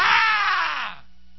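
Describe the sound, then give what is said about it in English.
A single loud, harsh scream lasts about a second, its pitch sliding downward before it cuts off sharply. “Somebody scream for me.”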